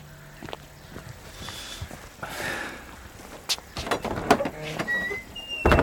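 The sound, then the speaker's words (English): A gate being opened: scraping, grinding and clicking, with a thin squeak, that grows louder and knockier toward the end. “Open the gate.”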